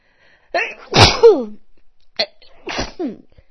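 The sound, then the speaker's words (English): A single loud, explosive sneeze bursts out after a short voiced intake, followed by a few brief, softer vocal sounds. “sneeze. Excuse me. Oh, it's still tickly.”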